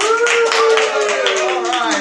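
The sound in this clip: An audience claps steadily and loudly to welcome a speaker at a session, dense applause lasting throughout.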